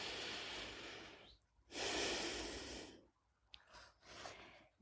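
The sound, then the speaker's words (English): Slow, deep breathing during a guided prayer breathing exercise: a long airy exhale, a pause, a fuller deep inhale, then softer, shorter breaths, all quiet and alone. “Breathe in slowly and deeply. Again.”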